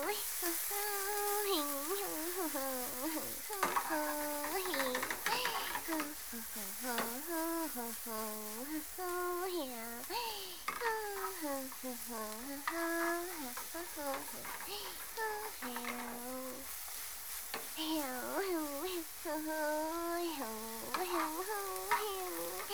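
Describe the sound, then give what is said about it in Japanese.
Pork and garlic frying in a pot give a steady sizzle throughout, partly masked by a prominent melodic tonal sound running over it. “お鍋に豚肉とニンニクを投入。”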